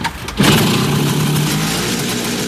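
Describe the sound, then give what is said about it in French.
The two-stroke engine of an original Cizeta scooter revs up sharply after a brief quieter moment, then holds a loud, steady, buzzing drone to the end. “Voilà le bruit de la Cizeta originale, un bruit que la nouvelle version de ce deux roues légendaire ne fera pas puisqu'elle sera électrique et donc quasiment silencieuse.”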